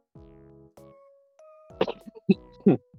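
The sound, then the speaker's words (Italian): Someone coughs hard several times in quick succession: loud, rough bursts that cluster in the final second or so. “Scusate, tossendo da matti.”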